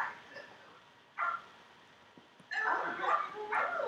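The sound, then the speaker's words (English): Dogs barking in a few short, yappy bursts, fairly faint and high-pitched, with a quick cluster of overlapping barks near the end. “Those dogs always seem to appear.”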